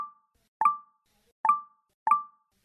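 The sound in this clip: Phone text message notification tones sound as one-time-password messages keep arriving: three short, bright, pinging chimes, each with a quick decaying ring, at uneven spacing and with nothing else around them.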